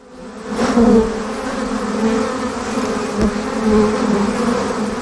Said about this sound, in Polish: Dużo jest takich pszczół, które takie pomarańczowe nóżki mają, to noszą teraz pyłek z nawłoci.